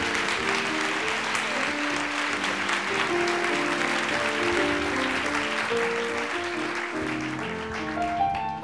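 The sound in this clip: Audience applause welcoming the author Melissa Bank onstage: steady, full clapping sustained throughout, with a tune of musical notes playing underneath.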